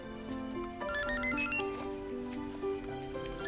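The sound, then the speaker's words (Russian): A mobile phone rings inside a handbag with a melodic electronic ringtone of stepping, repeating tones. It is steady and moderately loud throughout, with no voices. “Звонит телефон в сумочке Милы.”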